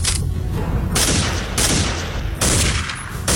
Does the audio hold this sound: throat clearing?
no